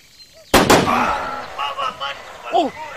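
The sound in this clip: Two sharp gunshots fired at a bear during a hunt crack in quick succession, followed by people talking.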